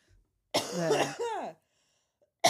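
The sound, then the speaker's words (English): A big, throaty cough in two harsh, voiced bursts, with the start of another burst at the very end. “That's a big cough.”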